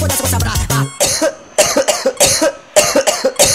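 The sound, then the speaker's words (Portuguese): A series of harsh coughs in a live DJ set, short forceful bursts in a quick, irregular rhythm, coming right after a brief passage of music. “Tá com tosse, vai!”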